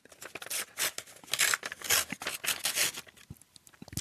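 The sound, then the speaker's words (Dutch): Paper tearing and crinkling as an envelope holding a quiz question is opened. A quiet series of short, crisp rips and rustles follows in an uneven rhythm. “En dan pak ik een envelop waar een vraag in zit. En dan gaan we eens even kijken wat erin zit.”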